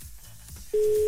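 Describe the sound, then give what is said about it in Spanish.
Telephone tone for an engaged dialled number: brief low noise, then a steady mid-pitched tone that starts suddenly and holds unchanged to the end. “El número marcado se encuentra ocupado.”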